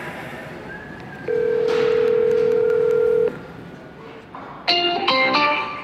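A telephone call being dialled: a long, steady mid-pitched tone holds for about two seconds, then after a pause a cluster of brief, overlapping electronic tones sounds.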